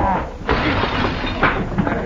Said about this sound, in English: There goes my plate glass mirror.